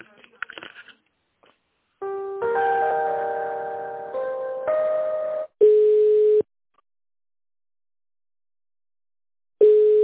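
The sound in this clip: Telephone line tones sound while a call is being transferred: steady electronic multi-note tones shift in steps, then a single-pitch tone plays, silence follows, and the tone returns at the end.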